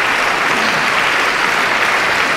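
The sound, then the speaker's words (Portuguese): Applause from an audience on a live album recording, with dense, even clapping at a steady volume throughout. “É um novo álbum, como se depreende pelas palmas, gravado ao vivo”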